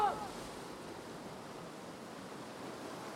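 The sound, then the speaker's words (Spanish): Waves breaking on rocks below seaside cliffs, a faint, steady wash of surf with a brief brighter splash at the very start. “Las olas rompen a su alrededor.”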